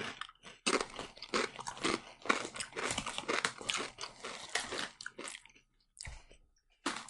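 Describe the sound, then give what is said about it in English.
Crunching and chewing of bacon-flavoured Lay's potato chips: many crisp, irregular crunches in rapid bursts, loud and continuous, with a short pause near the end before one more crunch, and no talking. “I mean, it tastes... They're weird. Yeah. It's not overly fake bacon. Yeah, but there's not enough flavor to them. That's always the problem with Lay's, is that they're not very flavorful.”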